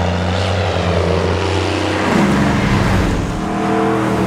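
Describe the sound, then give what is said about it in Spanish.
An airplane flying overhead gives a steady, loud propeller-engine drone with a deep humming tone that holds at an even level from start to finish. “Sí, yo creo que es un avión.”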